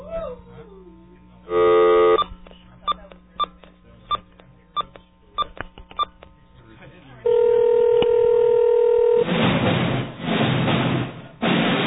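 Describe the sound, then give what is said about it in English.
Telephone dialing tones: a short steady tone burst, then a string of sharp regular clicks, then a longer steady tone, followed by a stretch of broad, noisy sound. “We're gonna phone the movie man.”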